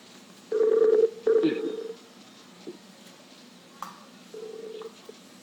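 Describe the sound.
Buzzy telephone line tones while redialing a dropped call: two long tones close together, then a softer, shorter one after a pause, over a faint steady hiss.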